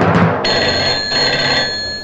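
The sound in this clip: A telephone bell rings in a continuous bright, metallic trill that starts abruptly after a short burst of noise and holds steady at a loud level.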